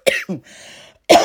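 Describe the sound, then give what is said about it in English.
A person coughing: a harsh burst and a quick second one, then a short pause and another rough cough, loud and close. “I was getting it too, and then this cough gonna come in, child. Irritating me.”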